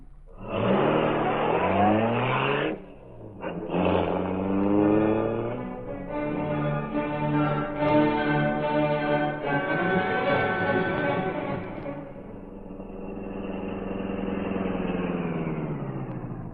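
A car engine roars as the car drives fast. Its pitch climbs steeply as it accelerates, dips briefly, then climbs again. It settles into a long, steady, loud drone that eases slightly toward the end.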